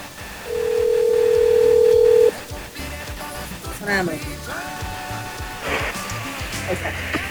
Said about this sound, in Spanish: Pues vamos a hacerle una más. Una llamada más.